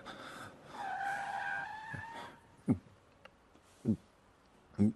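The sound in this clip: A car brakes to a stop with a faint, wavering tire squeal that lasts over a second and then fades. A few soft, low thuds follow at spaced intervals.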